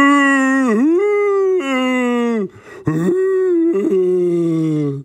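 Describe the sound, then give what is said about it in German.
A jaguar singing and howling: long, loud, wavering tonal howls in a few sustained phrases with pitch dips and bends, and a short break midway. “Und der Jaguar begann zu singen.”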